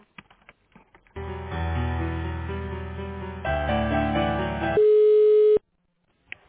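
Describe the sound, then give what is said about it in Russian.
Telephone line tones during a call transfer: a few seconds of layered electronic tones that shift in pitch, then one loud, steady beep that cuts off into silence. “Секундочку, я сейчас соединю вас с IT-отделом.”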